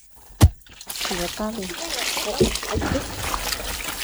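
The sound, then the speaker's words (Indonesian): Water is poured over sago fibres that hold the starch, washing it out with a steady splashing and trickling. A voice talks over the pouring. “Serat-serat yang mengandung tepung sagu ini disiram air.”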